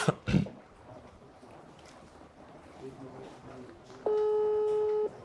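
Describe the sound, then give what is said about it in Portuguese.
Ringback tone of an outgoing video call on a phone: a single steady, sustained tone about a second long near the end, heard over low, murky background noise. “Ele falou pra ligar de vídeo, ó.”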